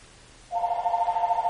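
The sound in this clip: A telephone rings, its steady electronic tone starting after a moment of near-silence and holding unbroken, fairly quiet, to the end.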